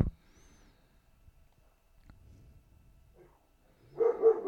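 A dog that is freaking out gives a short burst of barking at the very end, after several seconds of near silence with only faint low rustles.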